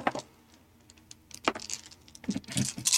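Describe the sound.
Several dice are rolled together during a Wild Talents tabletop roleplaying game, giving faint scattered clicks and a sharper clack midway. A denser burst of rattling clatter follows near the end.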